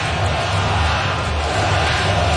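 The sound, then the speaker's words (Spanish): A baseball stadium crowd chanting "let's go Sox", heard as a loud, dense and steady roar of many voices with no pauses. “Escuchen al público, let's go Sox, let's go Sox.”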